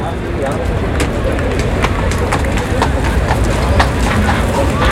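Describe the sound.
A picador's horse enters the bullring during a bullfight, its hooves clopping irregularly under loud, continuous crowd noise and voices.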